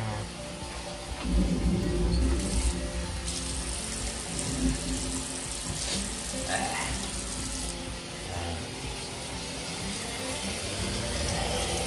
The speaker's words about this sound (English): I'm gonna rinse my face off.